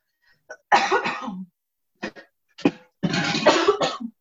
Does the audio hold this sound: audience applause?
no